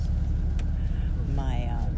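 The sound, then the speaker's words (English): Steady low rumble inside a quiet bus, a continuous engine and road drone that stays even throughout, with a brief voice-like tone near the end. “this is a very quiet bus”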